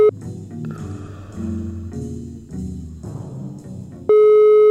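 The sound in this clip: A telephone call rings out unanswered, a short run of repeating tones on the line, then a loud, steady beep at the end.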